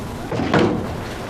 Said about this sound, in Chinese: 还关门？